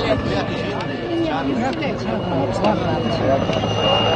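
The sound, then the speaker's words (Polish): A white helicopter flying overhead at an outdoor gathering where a cardinal passes, giving a steady droning engine roar throughout, with people talking and chattering over it. “patrzcie, widzieliście, że tam chorągiewka jest na tym białym helikopterem?”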